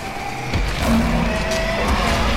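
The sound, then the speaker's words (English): A vehicle's tires skid and squeal as it loses traction, with a short high screech riding over a continuous engine roar. “Computer, what's happening? Loss of traction. Four-wheel drive, move it!”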